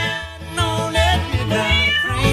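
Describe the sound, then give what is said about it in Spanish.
A cat on a small home farm meows a few times, with short, wavering, high-pitched mewing cries over a steady low rhythmic thumping. “Ay, hasta un gato, ay, sí, claro.”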